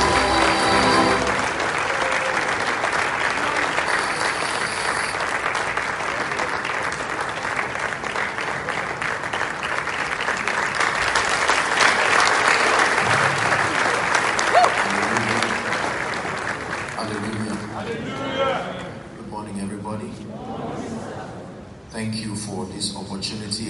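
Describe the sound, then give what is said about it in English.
A standing ovation from the audience at a church convention: dense, sustained applause that runs throughout as a steady wash of clapping, easing somewhat in the last stretch. “Ladies and gentlemen, with our standing ovation, let's make welcome Apostle Joshua Salmon to Impact Convention 2023.”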